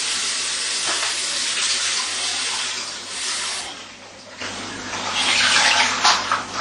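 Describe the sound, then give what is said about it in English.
Tap water runs while leftover coriander is soaked and washed in a kitchen: a loud, broad, steady hiss that dips briefly midway, then surges louder toward the end. “The coriander is left over yesterday already. Soak and wash it, you have to do it.”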